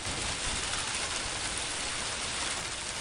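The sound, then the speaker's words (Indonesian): Steady rain falling, a dense, even hiss of drops that holds at the same moderate level for the whole clip with no breaks and no voices. “Aduh, hujan lagi. Mana aku nggak bawa payung?”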